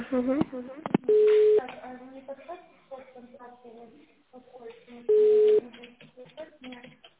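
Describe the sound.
Two steady, flat telephone beeps of about half a second each sound while a call is being transferred, about four seconds apart, with voices talking around them over a narrow phone line.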